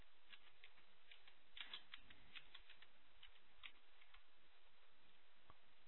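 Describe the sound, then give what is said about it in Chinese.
Someone types on a computer keyboard, producing faint, irregular clicks in loose bursts with short pauses between them. No one speaks. “糟糕，我现在打字的能力越来越差了。”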